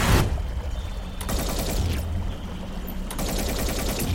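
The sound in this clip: Gunfire erupts on a river in a dramatised chase: loud, rapid bursts of shots repeat several times over a dense, continuous clatter, with no voices.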